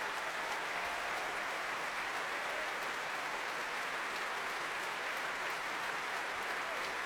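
A Royal Albert Hall Proms audience applauds Daniel Barenboim, many of them on their feet. Dense, steady clapping carries on unbroken throughout.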